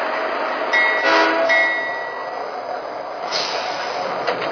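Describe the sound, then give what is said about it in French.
A passenger train from Montreal arrives at the station in Cobourg with a steady, broad rail rumble. Thin, high wheel squeals ring out near the start over the constant roar. “VRI annonce l'arrivée du train numéro 57 en provenance de Montréal.”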